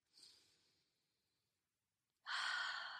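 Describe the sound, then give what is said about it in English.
A deep breath: a soft, airy breath, a short pause, then a louder, fuller rush of breath that lasts to the end. “Deep breath.”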